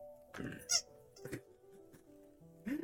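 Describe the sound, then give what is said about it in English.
Squeaky dog toys let out a couple of sharp, high-pitched squeaks, one early and one near the end, over a quiet background with faint voice-like sounds. “you oddly hear like dog toys squeaking in the background”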